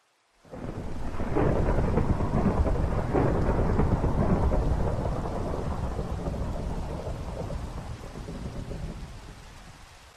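Heavy rain with rolling thunder, a loud continuous low rumble and dense hiss of rain that starts abruptly and then slowly tapers slightly toward the end.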